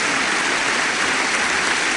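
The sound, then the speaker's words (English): Members of Congress, the Cabinet and gallery guests give President Ronald Reagan a standing ovation with cheering, a dense and steady roar of clapping with no separate claps standing out. “Once again, the members of Congress, members of the House and Senate, the President's Cabinet, guests in the galleries, are all on their feet cheering for the President of the United States, Ronald Reagan.”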